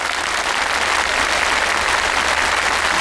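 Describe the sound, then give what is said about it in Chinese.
Audience members cheer and applaud at a workers' singing event with choral performances, giving a loud, dense, steady roar of clapping that holds evenly from start to finish. “在今天的职工歌唱大会现场，既有舞台上的合唱展演，也有台下方阵的热情呼应，整齐的喝彩声与歌声同频共振，氛围拉满。”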